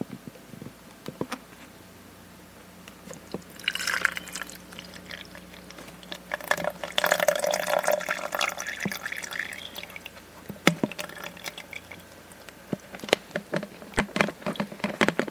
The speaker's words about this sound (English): and I'm going to unscrew this lid. I just have it in a little tea bottle that some Snapple tea came in. And I'm now going to fill up this.